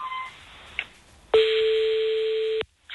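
Ringback tone of an outgoing telephone call, heard as one steady, mid-pitched electronic burst lasting about a second and a quarter. It sounds loud and alone, and it follows faint hiss and a small click.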